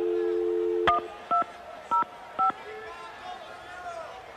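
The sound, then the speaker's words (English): A telephone number dialed on a touch-tone phone: a steady dial tone cuts off with a click, then four short beeps follow at an even pace over a low background hum. “how am I supposed to dial?”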